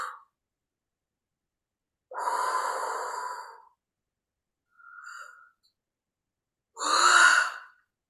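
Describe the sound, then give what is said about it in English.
Deep breathing during an energy-clearing session: a few long, airy breaths, one drawn out for over a second, each separated by stretches of silence, with no talk. “And I always use my breath when I clear energy”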